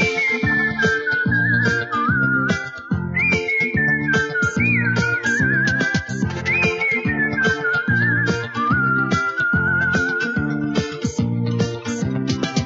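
A father whistling a bright, wavering melody with slides and trills, carried alone over a steady, rhythmic instrumental backing that pulses throughout.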